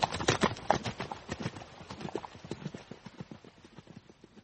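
Hoofbeats of horses galloping on horseback: many rapid, rhythmic thuds in a steady driving pattern that grow slightly softer toward the end.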